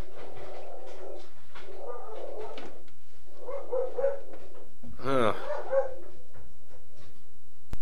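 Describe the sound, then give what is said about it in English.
A female dog barks at something outside in the dark, a few bursts of barking followed by a louder, higher and more strained outburst. “The dog was going crazy about something. I go down there and she's growling at something outside in the dark”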